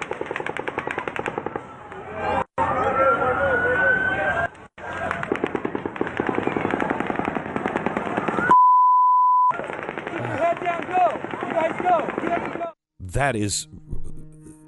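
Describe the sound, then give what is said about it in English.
A rifle fitted with a bump stock fires long, dense bursts of rapid automatic gunfire. Brief pauses break up the bursts, a steady beep sounds midway, and voices are mixed in with the shots. “That's a bump stock? That's an automatic weapon. Horrifying.”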